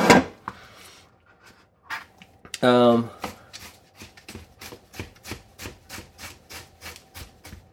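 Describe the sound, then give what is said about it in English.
A knife julienning ginger on a cutting board begins with a few scattered knocks and scrapes, then settles into a quick, even run of many crisp chopping taps. “So you're hearing me slicing up the julienne, the ginger.”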